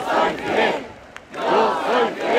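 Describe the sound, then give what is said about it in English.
A huge crowd chants in unison at Fidel Castro's funeral procession. Loud rhythmic voices come in two bursts, separated by a brief pause. “The crowd begins to chant.”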